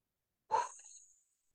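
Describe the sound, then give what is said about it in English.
A group exhales together during a breathwork prayer circle: a single soft, breathy outbreath lasting under a second, faint and alone against silence. “On three, we exhale. One, two, three, breathe it out.”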